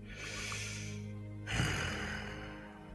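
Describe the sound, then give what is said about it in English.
A deep, laboured breath from a dragon waking from a nightmare, heavy and noisy throughout with a rougher surge of air halfway through. “A deep, laboured breath.”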